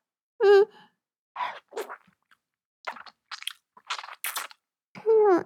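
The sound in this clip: Wet chewing and biting sounds as a person eats a rich food: a few short, crunchy mouth noises between brief hummed vocal sounds at the start and end.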